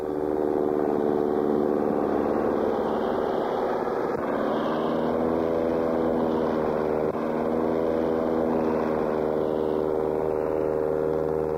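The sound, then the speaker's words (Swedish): Steady, loud droning of piston engines as Swedish-built B 17 dive bombers take off in groups, a dense harmonic roar that holds level throughout with a slight shift in tone partway, with no voices. “Det här är B-17, helt svenskbyggda störtbombplan som sagt. Lekmannen känner igen dem på deras långbyxor som de fäller upp när de väl kommit i luften. Grupp efter grupp startar och lyfter.”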